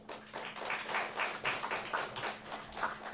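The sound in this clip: Applause from an audience welcoming a speaker: moderately quiet, steady clapping that swells and eases in a few soft waves, with no voices over it.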